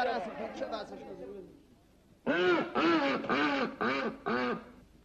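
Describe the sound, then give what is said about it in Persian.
A duck quacks in a run of loud, nasal, strongly voiced calls, coming in abrupt bursts after a stretch of people talking. “شما به چشم خودتون دیدین اردک تخم طلایی بذاره؟”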